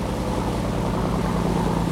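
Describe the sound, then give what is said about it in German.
An inflatable boat speeds over the sea, its outboard motor giving a steady, loud droning hum with a low rhythmic throb and rushing water noise, continuous throughout with no talk. “Und nochmal geht's mit dem Schlauchboot schnell weiter übers Meer.”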